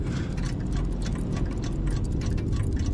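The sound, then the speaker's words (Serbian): Light ticking of a small clock mechanism: a steady run of quick, faint ticks over a dense, low, constant hiss. “Slušao sam lagani tik-tak malog mehanizma.”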